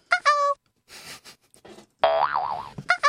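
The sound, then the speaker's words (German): A chat program's notification sound plays when someone comes online, a springy, wobbling boing tone that warbles up and down. Shorter bright electronic chimes come just before it and at the end, with faint scattered noises in between. “Ja, dieses Boing-Dings kommt, wenn jemand Neues online kommt, glaube ich.”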